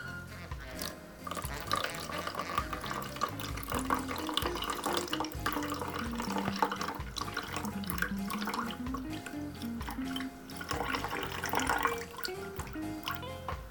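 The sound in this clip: Water pouring onto yerba mate in a gourd, a continuous, fairly quiet trickling and splashing of liquid that runs steadily throughout.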